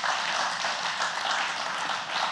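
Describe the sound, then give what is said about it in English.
An audience clapping at a church service, a dense, steady wash of many hands applauding at an even level from start to finish. “And so we want to say thank you to all of them. You can go ahead and clap”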